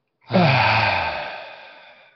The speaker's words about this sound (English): on the count of three, you're going to release with a loud, audible exhale through the mouth.